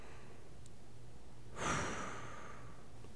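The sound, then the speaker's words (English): A single deep breath, a soft airy rush lasting about half a second, rising out of a faint steady hum and then fading away. “Let me calm down. Let me take a deep breath.”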